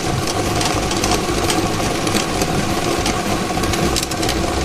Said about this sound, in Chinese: 大家看到摇奖机已经正式启动了，我们看到30个号码球正在飞速地旋转着